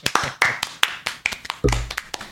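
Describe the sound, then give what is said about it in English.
Two people clap in a circle to honor someone, producing many sharp, separate hand claps in a quick, slightly uneven rhythm, with small gaps between the crisp smacks. “Just in case you guys can't imagine what we did both clap in a circle for Ben.”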